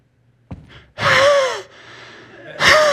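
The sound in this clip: A voice imitates the heavy, gasping breaths of someone hiking uphill on a steep four-mile ridge trail: a short gasp, then two long, loud, voiced pants with silence between them.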